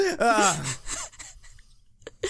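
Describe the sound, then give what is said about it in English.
A person imitates demonic possession noises with a strained, wavering voiced groan, followed by a few short, breathy sounds. “We got different possession noises. Yours is real wiggly, and mine's just deep inhales.”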